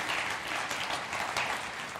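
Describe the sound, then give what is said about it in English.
Audience applause at a church service, a dense and steady wash of many hands clapping at even loudness, with no voices over it. “Welcome them up one more time. Put your hands together for him.”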